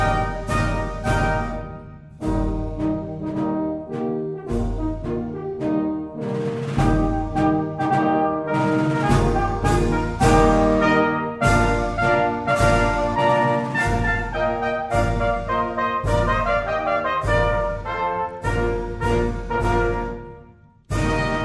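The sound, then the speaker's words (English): A march tune composed in 1793 to honor the first US president, played loud and brisk with a steady, accented beat and dense repeated notes that carry throughout without voices. “What you're hearing right now is the President's March. It was written in 1793 to honor our first president, George Washington, by a German immigrant,”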